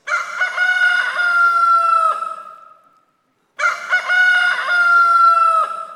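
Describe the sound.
A rooster crows twice in the morning. Each call is a loud, drawn-out cock-a-doodle-doo lasting about two seconds, separated by a short silence, with no other sounds.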